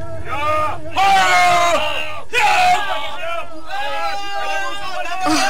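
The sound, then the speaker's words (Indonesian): Loud crowd of palace guards shouting in alarm about intruders, with overlapping raised voices erupting in several strong bursts across the whole stretch. “Akan tetapi, tiba-tiba saja dari belakang mereka terdengar teriakan ramai.”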